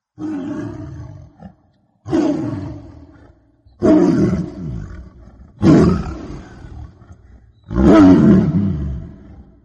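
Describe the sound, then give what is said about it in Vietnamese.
A tiger growls in five loud, rough, low roars, each lasting a second or two. Silent pauses separate the roars, and the later ones grow slightly heavier and longer. “Họ nghe như đâu đó vang lên tiếng cọp gầm gừ từ một cõi xa xăm.”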